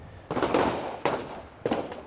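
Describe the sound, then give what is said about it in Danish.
Three gunshots sound at a shooting range on Amager in Copenhagen. Each is a sharp, fairly faint crack with a short decaying tail, spaced unevenly, with no talk. “På vej ind på en skydebane på Amager. Københavns Skyttecenter.”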